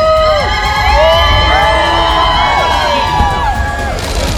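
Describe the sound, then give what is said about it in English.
A crowd cheers and whoops for the Duke and Duchess of Sussex at their first joint engagement since returning to the UK. Loud, high shouts and whistles rise and fall in pitch over a constant roar of voices. “the Duke and Duchess of Sussex have been cheered at their first joint engagement since returning to the UK.”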